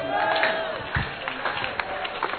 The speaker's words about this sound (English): Give the Lord a better clap and a shout.